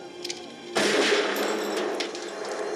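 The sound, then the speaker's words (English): A gunshot rings out in a tense film scene as a woman shoots a man during a standoff over a bomb, a sudden loud, sharp blast breaking a quieter background and leaving a long, noisy ringing tail. “She shoots his middle finger off”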